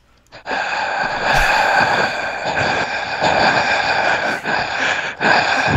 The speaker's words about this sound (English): Do you want me to breathe into the microphone with the help?